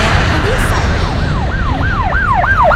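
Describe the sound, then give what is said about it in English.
A police siren wails loudly, its pitch sweeping up and down in quick repeating cycles over a low, steady road rumble. “or a police siren. Oops, sorry everyone. I guess there were some masking sounds covering up my voice there.”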